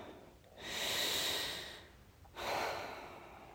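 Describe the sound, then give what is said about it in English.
A long, deep human breath: a slow, airy inhale, a brief pause, then a long, soft exhale that tails off gradually, heard alone without talk. “Let's take another long, deep breath.”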